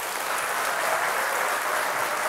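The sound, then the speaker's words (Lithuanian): Studio audience applause welcoming a guest onto a show, a dense, loud, continuous roar of clapping that stays at an even level throughout. “Taip, pasitikime plojimais.”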